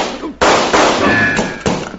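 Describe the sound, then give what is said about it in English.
Gunshots from a gun drawn from its holster during a shootout: several loud, sharp blasts in quick succession, each trailing off into a noisy ring, with no voices. “That kind of shooting I never seen before”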